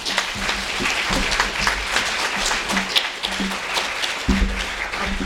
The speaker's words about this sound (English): So please put your hands together for Gill Booth.